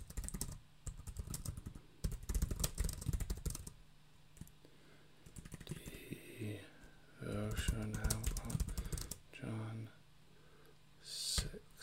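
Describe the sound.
Typing on a computer keyboard to update a stream key, with bursts of rapid, quiet clicking broken by pauses and by people talking.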